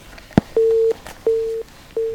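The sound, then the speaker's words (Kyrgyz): Telephone busy signal after a dropped call, a click followed by three short, steady beeps in an even on-off rhythm, loud and clear. “Тилекке каршы байланыш үзүлүп калды дейт.”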